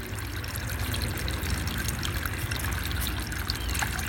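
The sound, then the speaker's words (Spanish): Water trickles in a steady, unbroken stream, a soft even wash of splashing that holds at one level throughout with no clear drops or pauses. “Soy un tesoro y debes cuidarme. Soy el agua. Soy inquieta.”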